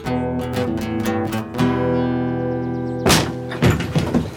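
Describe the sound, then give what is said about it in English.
A locked improvised strong room door being forced open: a held, ringing tone gives way to a few heavy thuds and cracking impacts near the end. “Zeke Duncan stared open-mouthed at the improvised strong room they had just forced open.”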